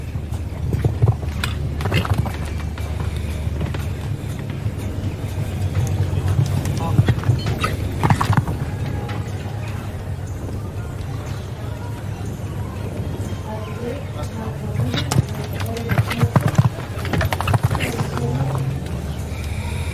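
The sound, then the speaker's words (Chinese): Hoofbeats of a 10-year-old Belgian warmblood stallion in competition, many dull thuds in a continuous uneven rhythm over dense, steady background noise. “他的参赛马搭档德马里波萨呢是10岁的比利时混血种公马”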